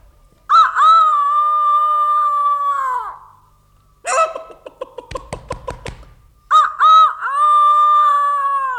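A rooster on a farm crows twice, each a loud, long, strained call. A stretch of rougher, rapid noises comes between the two crows.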